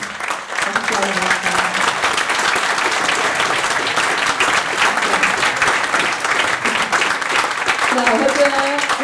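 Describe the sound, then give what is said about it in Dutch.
Sustained audience applause at a peace movement action conference, loud dense clapping that carries on steadily for the whole stretch, with faint voices mixed in. “Het applaus laat wel zien dat ik eigenlijk geen introductie hoef te geven”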